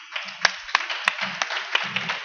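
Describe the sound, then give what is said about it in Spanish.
Audience applause before a talk: scattered, irregular claps at moderate loudness rather than a full ovation, with low murmuring voices underneath. “Un aplauso.”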